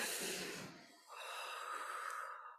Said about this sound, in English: Okay, all right, everybody taking a breath.